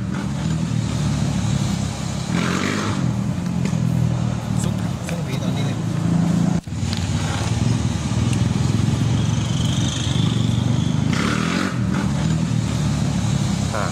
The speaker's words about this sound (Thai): คลิปนี้เหมือนขี่มอเตอร์ไซค์แล้วก็ยกล้อ